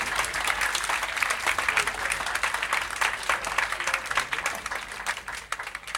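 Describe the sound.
Applause from an audience welcoming alto saxophonist Peter King to a jazz bandstand: dense, steady clapping that holds at an even level throughout, with no clear voices standing out.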